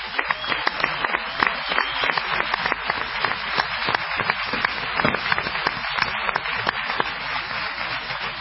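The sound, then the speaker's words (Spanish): Strong applause greets a guest on a political talk program, with dense, rapid clapping holding a steady, moderate level for the whole stretch. “Le pido un fuerte aplauso.”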